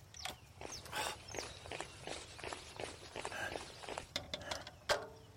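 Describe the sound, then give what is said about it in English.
Quick footsteps of someone running make a rapid series of many sharp, faint impacts. The steps come in an uneven rhythm, with a few louder thuds toward the end. “Hey! Why are you running?”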